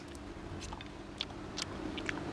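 Chewing on a bite of stir-fried gourd with meat: soft, faint crunches and mouth clicks recur a few times at an irregular pace over a low, steady background hum.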